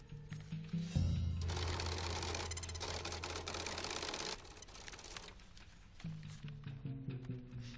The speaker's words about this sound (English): My associate, yeah, we'll do the count. See if it's all there. It's better this way. The machine don't lie.